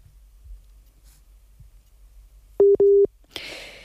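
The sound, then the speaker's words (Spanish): A busy tone after a phone call to Ghana cuts off: two short, steady mid-pitched beeps, loud against faint low clicks before them, then a brief burst of hiss. “Uy, se ha interrumpido la comunicación. Vamos a intentar recuperar la llamada con Usman.”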